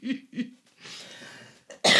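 Coughing to clear phlegm from the throat: two short, rough coughs, a raspy breathy stretch, then a louder, sharper cough burst at the end.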